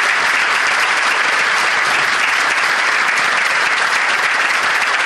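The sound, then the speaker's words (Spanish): Loud, sustained applause from a crowd, with dense, steady clapping throughout and no pauses. “Quiero pedirles un fuerte aplauso para todos los chicos que están en la básica todos los días con nosotros laburando.”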